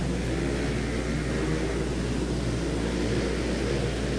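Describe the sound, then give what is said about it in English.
Modified four-stroke mini bike engines drone continuously as they race, forming a steady, dense buzz with no distinct individual passes standing out. “Little four-stroke mini bikes hopped up to the extreme.”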